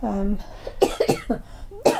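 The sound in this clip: A few short, harsh coughs come from someone with a lingering tickle in the throat. They are set among a woman's chatty speech, and one last cough sounds near the end.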